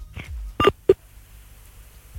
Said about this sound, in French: Du coup on va devoir appeler quelqu'un d'autre encore.